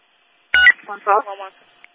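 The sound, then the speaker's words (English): Electronic telephone tones in a short burst: a sharp opening tone followed by a few brief, stepped tonal segments, moderately loud and alone, ending with a faint final blip. “Hey, that's my phone.”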